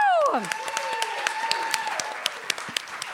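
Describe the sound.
Audience applause welcomes a guest comedian at a live SF Sketchfest show. A voice is heard at the start, then light clapping follows with sharp, distinct individual claps standing out from the softer background.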